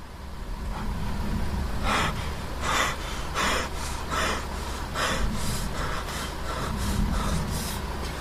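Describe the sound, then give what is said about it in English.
An injured man takes several deep, ragged breaths while sitting in a car after a crash. Many breathy bursts come in an uneven rhythm over a steady low rumble, and no one speaks. “He takes several deep breaths.”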